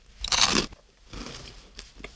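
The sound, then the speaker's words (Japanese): A crunchy fried-chicken-flavoured snack being bitten: one loud, crisp crunch, followed by softer crackling chews that fade out, with no voices. “いや、後味が唐揚げくんです。今サクって言ったから”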